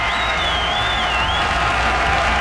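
Applause from a crowd at an event celebrating a world day for mothers and fathers: steady, dense clapping throughout, with a thin high whistle briefly riding over it.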